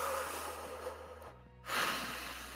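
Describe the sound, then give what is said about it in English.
A deep breath taken during a calm guided walk, heard as a soft breathy rush of air over a steady low background hum, with the breath swelling again near the end. “Kind of take a deep breath.”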